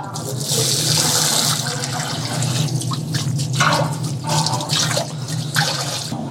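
Something being washed under running water at a tahini shop in an old city: a steady, loud stream of water from a tap that splashes and gurgles throughout, with brief surges in the splashing and no talk.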